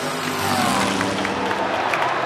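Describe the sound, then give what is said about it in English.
Roar at a monster truck rally, a dense, continuous wash of loud engine noise with no clear breaks or separate events. “Yeah, we're at a place that is really cool. A monster truck rally.”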